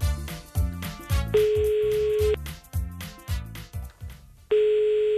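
A telephone is dialed with a run of short, rhythmic tone bursts broken by a steady, held dial tone. The bursts resume and the dial tone returns at the end, all fairly loud with no voices.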